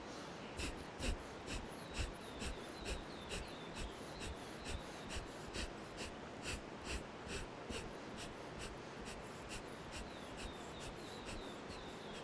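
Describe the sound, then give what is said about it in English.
Forceful nasal breathing during an alternate-nostril breathing exercise, drawing in through the right nostril and pushing out through the left: many quick, rhythmic snorting pulses at a steady pace, fairly faint. “And now we'll do the same thing but on the opposite side. So inhaling through the right, exhaling through the left.”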